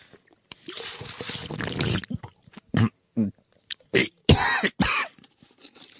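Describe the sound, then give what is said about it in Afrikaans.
A person coughing: a long, rough, rasping cough, then several short, harsh coughing bursts with brief pauses between them. “Dit is nogal 'n hoesie wat jy daar het, jongen.”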